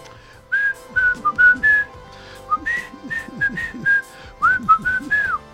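A man whistling a lively tune of many short, bright notes that rise and fall in quick phrases, with a low rumble of other sound underneath.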